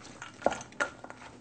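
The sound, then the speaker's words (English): A cup of walnuts being mashed in a mixing bowl gives a few faint knocks and soft scrapes of utensil against bowl, with no talk. “we're going to put a cup of the walnuts in here and just kind of mash them in.”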